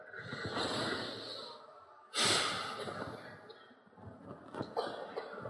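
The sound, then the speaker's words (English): An audience at a talk takes a big breath together, a broad, airy rush of many inhales and exhales with a sharp, louder intake about midway and softer breathy gusts around it. “So to set this up, I'd ask us all to take a big breath again together.”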